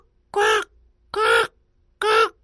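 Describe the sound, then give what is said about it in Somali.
A crow caws three times: loud, harsh, raspy calls of similar length, evenly spaced and heard alone. “fiiri tukuu wuxuu dhawaaqaa”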